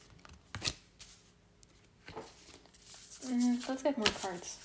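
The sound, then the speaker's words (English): Tarot cards being shuffled and pulled from the deck, giving a few quick papery riffles and flicks. A voice briefly speaks near the end. “Let's get more cards. Yeah, okay, thank you. I've just pulled cards from the,”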